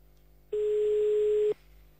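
One steady ringing tone on a phone line as a call is placed again, a clean mid-pitched hum lasting about a second between stretches of faint line noise.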